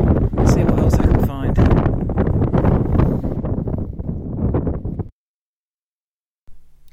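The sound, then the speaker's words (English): Strong wind buffets a microphone outdoors on an upland track in Scotland, with loud, low, rumbling gusts for about five seconds before the sound drops to near silence. “It's quite windy up here, as you can probably tell from the microphone.”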